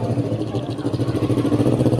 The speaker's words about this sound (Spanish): Una moto que se va